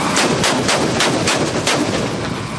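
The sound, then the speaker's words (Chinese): Smoke-screen vehicles fire smoke shells in a rapid salvo of sharp, loud launch blasts that follow one another closely, building into a continuous, crackling barrage with no voices. “现在的烟幕不仅能对抗光学红外侦察，更是应对精确打击的重要手段。 一组装填完毕，二组装填完毕，发射。”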